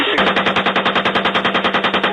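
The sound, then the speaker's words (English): Sustained automatic gunfire from soldiers shooting in combat in Iraq: one long, loud burst of rapid shots in a steady, even rhythm of roughly twenty closely spaced reports, with no voices. “Keep shooting. Roger, go ahead.”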